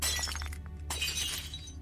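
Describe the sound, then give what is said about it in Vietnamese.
Glass shattering as a beer bottle is smashed against a wall: a loud crashing burst of breaking glass followed by a continuing tinkle of shards, with no voices. “Tôi nhào đến, cầm lấy chai bia siết chặt, sau đó tôi đập mạnh vào tường.”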